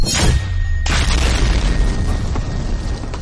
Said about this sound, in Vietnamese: Tiếng nổ mạnh động trời vang lên.